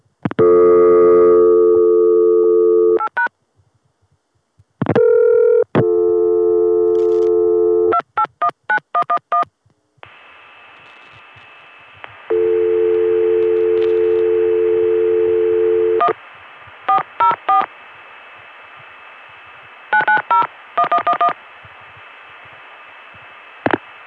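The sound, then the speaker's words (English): Call progress tones on a telephone line as a vacant long-distance code is dialed from a Richmond No. 1 ESS office: a steady dial tone, short bursts of touch-tone digits, then long, even tones broken by more beeps, with no voices. “But we can dial a non-completed long distance call. Let's dial a vacant code that'll get us a recording from the long distance tandem that serves this Richmond number 1 ESS office.”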